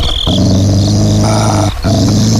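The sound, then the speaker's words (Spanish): A feral dog growls in a deep, loud, sustained rumble that breaks off briefly once before resuming. “Este es un perro cimarrón y anda con cara de muy pocos amigos.”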